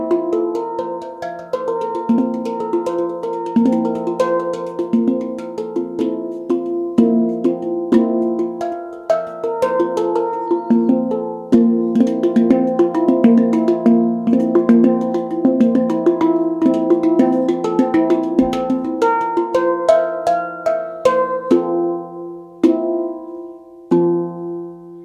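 A tarrapan handpan, a hollow instrument made of two joined steel shells, is played alone with a flowing melody. Ringing, bell-like notes are struck in a steady rhythm, their overtones sustaining and overlapping as the notes continue.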